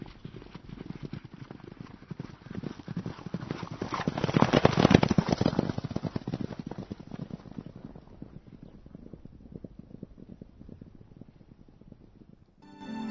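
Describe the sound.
Hoofbeats of a white horse galloping toward a palace entrance: a fast, steady run of many clip-clop strikes that swell to a loud peak midway and then gradually fade, with no talk.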